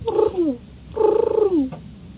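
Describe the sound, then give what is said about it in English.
A pigeon call blown by hand gives two wavering cooing notes. Each note slides downward in pitch, and the second is longer. A soft click follows. “And over here, see, this one is a pigeon call.”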